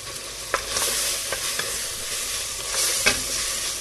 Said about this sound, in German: Ruhig ein bisschen angehen lassen, aber nicht braun, aber der Speck sollte schon und ausgelassen sein.